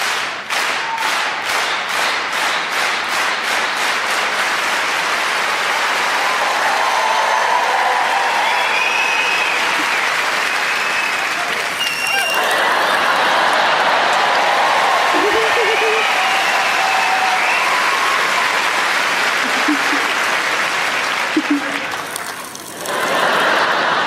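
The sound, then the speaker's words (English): A group of people clapping their hands, opening with a quick, steady rhythmic pattern of claps that merges into a continuous, sustained wash of applause, with some voices mixed in. “can we do clap, clap, clap?”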